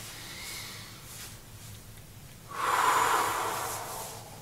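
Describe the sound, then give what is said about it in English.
A deep breath during a guided relaxation exercise: after a quiet stretch, one long, loud, airy inhale swells and then slowly eases off, with no talk over it. “Take a deep breath.”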